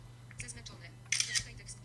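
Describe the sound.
A phone camera app's shutter sounds as it photographs a book page, a brief crisp double click near the middle, standing out over a low steady hum and faint background noise.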